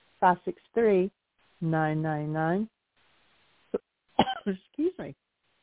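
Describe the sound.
A person coughs and clears their throat after swallowing wrong, with several short, sharp bursts and longer strained voiced sounds separated by pauses.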